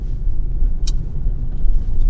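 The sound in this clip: Car driving over road noise at a crossing: a steady, loud low rumble throughout, broken by one brief sharp high click partway through.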